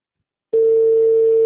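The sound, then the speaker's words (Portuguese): A telephone tone after a call that could not be completed: one loud, steady pitch that switches on abruptly after half a second of silence and holds unbroken to the end. “Não foi possível completar a sua ligação. Por favor, verifique o número e ligue novamente.”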